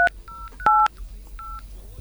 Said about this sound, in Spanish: Estamos marcando al segundo.